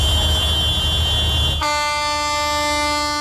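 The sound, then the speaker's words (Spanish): Dozens of tractors at a farmers' protest outside a government building: a low engine rumble gives way halfway through to a loud, sustained horn blast with a rich, buzzy tone that holds steady to the end. “A esta hora, varias decenas de tractores se manifiestan así frente a la sede del Gobierno vasco.”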